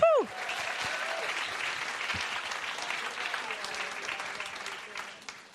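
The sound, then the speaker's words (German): Applause for a preacher at a church conference: a full crowd claps strongly and steadily for several seconds after a brief opening tone, then tapers off at the end. “Wir werden jetzt Janet Angela hören. Sie predigt uns das Wort. Und ja, gib dir doch mal einen kräftigen Applaus.”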